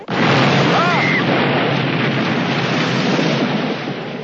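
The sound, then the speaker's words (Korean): A boat explodes in a film: a sudden loud roaring blast that becomes a dense, sustained rumble and eases off slightly toward the end. “그 순간 폭발하는 배. 간발의 차이였습니다.”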